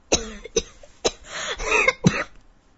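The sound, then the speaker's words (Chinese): Violent coughing from a man choking on a large gulp of cigarette smoke: a rapid series of loud, harsh coughs with rough, strained sounds between them, heard alone. “他一口吐出香烟，拼命的咳了起来，鼻涕眼泪全出来了。”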